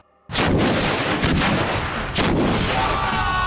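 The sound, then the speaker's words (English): A real sewer explosion set off by a spark. A sudden loud blast bursts out and turns into a sustained roaring rumble, with two more booming surges following. “real world sewer explosion, best case scenario, sparking in 3, 2, 1.”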